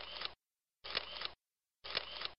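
Three phone camera shutter clicks snapped for a selfie on a small plane: crisp, bright bursts of equal length, evenly spaced with silence between them.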